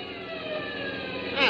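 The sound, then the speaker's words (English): Police car sirens wail in pursuit through downtown traffic, a sustained, steady, piercing tone with layered harmonics over a constant roar, lasting without a break. “How can I slow down with all those police cars on my tail?”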